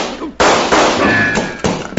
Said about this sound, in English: That kind of shooting I never seen before